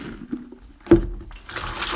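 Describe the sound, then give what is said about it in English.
Tap water runs over a batch of mid-size potatoes being rinsed. A brief knock comes first, then a soft, steady splash. “And just going to give them a rinse.”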